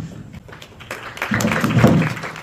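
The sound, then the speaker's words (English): Applause from an audience, a dense crackle of clapping that swells from about midway and stays fairly loud to the end. “They get a round of applause.”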